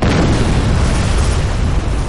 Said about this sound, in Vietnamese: Hắn cảm giác được phía sau mình truyền tới một làn sóng nổ lớn.